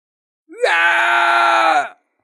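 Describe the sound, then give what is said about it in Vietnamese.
A man screams in pain: a single loud, strained, sustained cry lasting about a second and a half that rises sharply at the start, holds steady, then trails off. “Mã Nguyên gào thét, mặt mày tái nhợt mà vặn vẹo, một nửa là tức giận, một nửa là vì đau nhức.”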